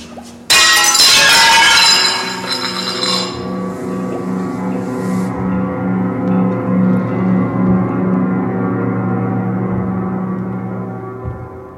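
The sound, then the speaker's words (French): A glass display case is smashed with one loud, sharp crash of breaking glass, followed by a long, sustained low ringing tone that slowly fades. “Allez, allez, aide-moi à casser cette vitrine.”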